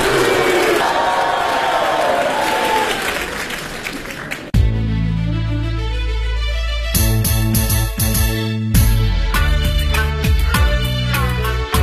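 Crowd applause and cheering welcoming a crosstalk comedian on stage, dense and loud for about four seconds before giving way to music with a steady beat.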